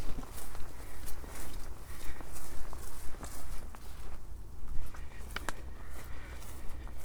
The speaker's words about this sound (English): I'm walking on the track above Carrick Roads.